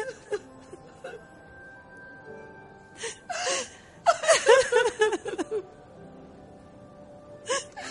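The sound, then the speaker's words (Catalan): Two women crying together in a Catalan radio play, heard as faint gasps and whimpering sobs that build into a cluster of louder, breathy, laugh-like bursts midway, then fade to quiet with one short final sob. “Les dues dones es miren una estona fixament als ulls. Es posen a plorar totes dues.”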